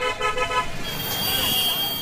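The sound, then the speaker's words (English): Congested city traffic heard from a taxi crawling among motorcycles and three-wheeled auto rickshaws. A few short horn toots sound at the start over a steady rumble of engines and road noise. “as our taxi crawls through traffic, motorcycles and three-wheeled auto rickshaws weave past us.”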